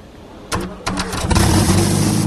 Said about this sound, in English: reckons he's come up with the right combination of gears to get that pump going slow. They moved. We want to see those pistons.